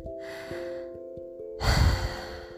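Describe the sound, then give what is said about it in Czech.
A deep breath drawn in, a loud rushing inhalation in the second half, rising over a soft sustained tonal drone that plays throughout. “Usměju se do široka a zhluboka se nadechnu.”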